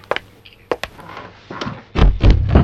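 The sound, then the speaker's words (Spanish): Someone misses a chair and drops onto the floor: a few light taps and knocks, then a heavier, low, rumbling thud with scuffling that carries on to the end. “¿Está bien? ¿No embocó en la silla? No se preocupe. No me gustan las sillas, por eso me senté en el piso.”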